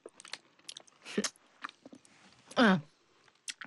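Crunchy chewing and biting of jujube dates: a few moist, crackly bites spaced irregularly, with one louder, longer crunch near the end that carries a brief voiced tone.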